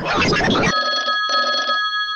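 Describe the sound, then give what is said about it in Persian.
A telephone ring sound effect follows a short stretch of talk: a steady, bright electronic tone in two bursts with a brief gap between them, then fading out. “لطفا یه زنگ تلفن بده که بریم بازی کنیم.”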